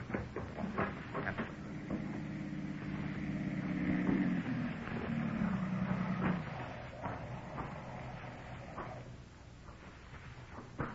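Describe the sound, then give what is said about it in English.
A car approaches in a radio drama sound effect: a faint, muffled low engine rumble swells for a few seconds, then fades back down. “Cut through the side door here. I see the car coming.”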